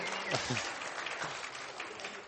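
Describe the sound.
Scattered clapping from a small morning church audience, soft and fairly steady, with a voice briefly rising over it early on.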